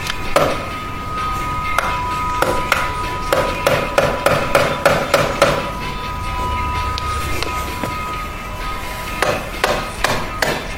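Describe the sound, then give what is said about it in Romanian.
Hammering a nail: many sharp metallic blows in uneven bursts, some quick runs of strikes and some spaced apart, loud throughout. “Poți bate un cui?”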